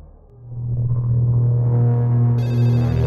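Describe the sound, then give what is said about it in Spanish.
A telephone rings in a hotel room with a loud, steady electronic ringing tone over a low throbbing hum. A brighter, higher ringing layer joins near the end. No voices are heard. “Pero antes de salir le interrumpió el sonido del teléfono.”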